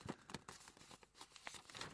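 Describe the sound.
Paper tears and crinkles as an envelope with a letter inside is ripped open, giving a few faint, crackly bursts of rustling spread across the moment.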